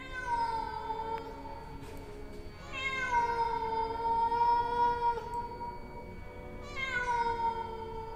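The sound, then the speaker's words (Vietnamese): A cat wails plaintively in three long, drawn-out cries with strong harmonics, each held for a second or more and separated by short pauses. “Trong lòng, tiếng con mèo nó kêu lên thảm thiết, như kiểu nó nhận biết chuyện gì sắp xảy ra.”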